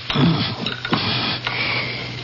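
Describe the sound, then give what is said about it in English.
Digitalis leaves are ground in a mortar: a few short, rough scraping strokes over a steady low background hum. “Now I place these leaves into the mortar and grind them up.”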